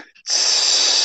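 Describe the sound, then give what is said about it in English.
A forceful exhale with a sound during a breathwork exercise, as the breath is squeezed out: after a soft, brief start, a loud, steady, airy hiss sustains evenly to the end. “And now I'm going to ask you to exhale with a sound. It will sound like this.”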